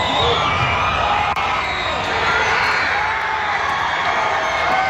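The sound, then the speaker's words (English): A loud crowd roar as fans cheer Canada scoring to go 1-0 up against Qatar in a men's World Cup soccer match. It is a dense, sustained wall of cheering and whoops that lasts the whole clip. “That sound you just heard, the roar of the crowd as Canada made it 1-0 against Qatar moments ago.”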